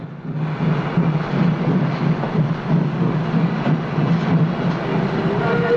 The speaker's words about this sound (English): the train carriages are wreathed in steam as the locomotive picks up speed.